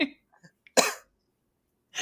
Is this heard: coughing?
yes

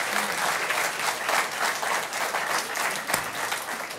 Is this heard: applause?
yes

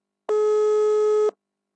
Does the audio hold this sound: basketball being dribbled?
no

